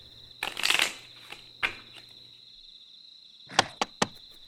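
Regular playing cards being shuffled: a rapid, crackling riffle near the start, then a few separate sharp snaps and taps of the deck, fairly loud against a steady high-pitched whine, with no talk.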